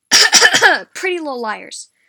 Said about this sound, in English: Yeah, that was a fake cough, guys. I do not have corona.